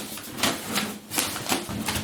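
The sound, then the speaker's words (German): Rustling of packaging, several crisp papery bursts following one another in an uneven rhythm at a steady, moderate level. “ich muss mal kurz rascheln”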